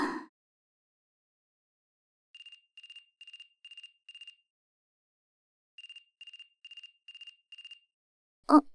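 A waterproof mobile phone rings with a quiet electronic tone in two groups of five short beeps separated by a pause, with brief, louder noises at the start and end.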